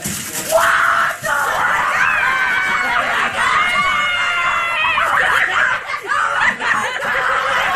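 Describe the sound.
Excited high-pitched shrieks and giggling laughter come from someone opening a holiday gift. The loud, overlapping squeals carry on throughout, broken by a few breathy pauses.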